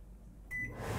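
A microwave oven with a tester inside switches on briefly during a home inspection: a short tone at start-up, then a low, steady hum that fills the rest of the moment.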